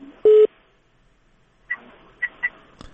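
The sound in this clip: Telephone line tones as a caller connects to a call-in line: one loud, steady beep, then after a silent pause a few short, fainter beeps and clicks.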